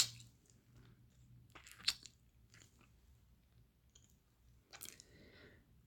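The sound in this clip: Faint, wet chewing while tasting food, with a few soft clicks and squishy mouth sounds at low volume.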